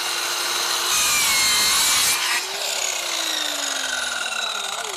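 Hand saw making the last cut through wood on a building facade and hitting a nail in the final centimetre: loud rasping strokes, then the sound changes, turning thinner with a faint ringing tone beneath.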